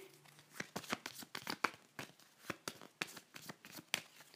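A deck of cards is shuffled between draws in a card game. It is faint, with many crisp, papery riffling clicks in irregular bursts and no voices.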